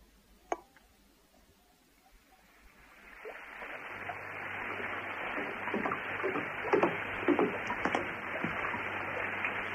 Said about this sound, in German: Wenn es hier regnet, regnet es nur so. Und meistens regnet es hier.